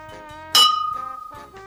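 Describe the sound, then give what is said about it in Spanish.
A single bright clink of golden cups touched together in a toast rings briefly and fades over a steady, sustained musical tone. “con estas copas de oro, propongo un brindis por la victoria del rey Ahasverosh.”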